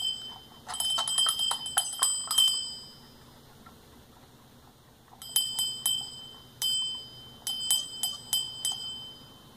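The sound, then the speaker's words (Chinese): A small bell is shaken and rung, giving bright metallic jingling in two clusters of rapid rings separated by a quiet pause. No voices are heard. “铃铛响，叮当。 那咱们敲一敲铃铛。咱们摇一摇，”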